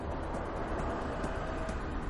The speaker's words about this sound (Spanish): Un tren de mercancías se acerca por detrás.